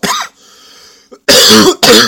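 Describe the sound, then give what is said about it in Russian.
Harsh coughing from a person who has just choked: a short cough, then a quiet gap with a faint wheezy breath, followed by a couple of loud, rough coughing bursts at the end. “Подавился, извините, прям вот вовремя.”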